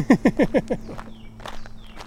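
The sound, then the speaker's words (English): Footsteps of people walking on a long, sweaty workout hike: about five quick, regular steps at the start, then fainter, scattered scuffs. “And we keep walking.”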